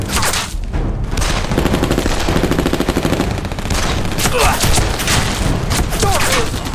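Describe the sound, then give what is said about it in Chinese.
An artillery cannon firing, with its first shell hitting the target. It is set in a dense, continuous roar of gunfire and heavy booms that stays loud throughout. “开炮！ 哎，第一炮就打中了”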